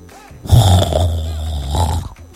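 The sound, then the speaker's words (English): A single loud, low, rumbling snore swells in and holds for nearly two seconds before fading. “Don't worry, that was not a lion. Yeah, they start snoring.”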